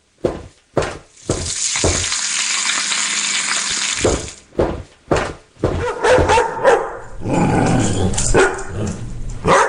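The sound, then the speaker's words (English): Bacon frying in a pan as it is turned: a steady sizzling hiss broken by several sharp, loud bursts of clatter. “One moment, please. I have to turn the bacon or it will burn.”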